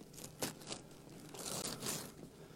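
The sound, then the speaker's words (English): Wrapping paper tearing and crinkling as a wrapped Christmas gift box is opened, a quick rip near the start followed by longer, quiet rustling tears. “Here's the next gift I want to open up. I've got a new box here.”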